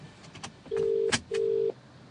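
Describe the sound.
A phone call rings out on the line as two steady, low ringback tones of about half a second each, split by a sharp click, with a few faint ticks before and no voices.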